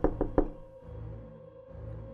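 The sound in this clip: Knocking on a door: three quick, sharp raps at the start, followed by a low, steady background hum.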